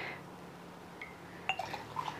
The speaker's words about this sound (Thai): แล้วเราก็ตักมาซาลาชัยเนี่ย